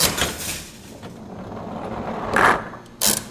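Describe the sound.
A 1940s skee-ball machine rumbles as a ball rolls through it with a steady mechanical rattle, then a brief bell ring and a sharp clack near the end.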